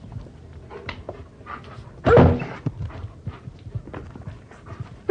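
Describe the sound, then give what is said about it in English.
A German Shepherd dog barks in two loud, sharp bursts, one midway and one at the very end, separated by soft rustling and light patter. “I just happen to have a German Shepherd, and I take him with me when I go running.”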